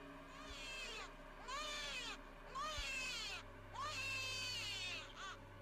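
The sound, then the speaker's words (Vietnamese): Shrill, wailing cries ring out at a riverbank, several high, warbling sobs that rise and fall in pitch, fairly faint over a steady low hum. “Rồi sau đó, ở ngay chỗ mép sông, vang lên tiếng khóc choe choé.”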